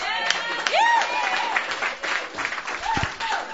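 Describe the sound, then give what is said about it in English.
Audience applause at a Sunday night open mic, welcoming a returning performer; moderate clapping runs beneath a voice speaking over it throughout. “Please put your hands together.”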